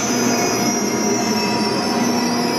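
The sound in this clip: Loud, continuous high-pitched squeal of Black Forest Railway train wheels at Offenburg station, steady over a dense rail rumble, with no voices.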